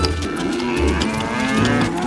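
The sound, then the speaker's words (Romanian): Cows moo as they are led out to graze near a jungle. Deep, drawn-out lowing calls overlap one another, loud and continuous over a dense, noisy background. “Krishna a dezlegat vacile și le-a dus la pășunat în apropierea junglei.”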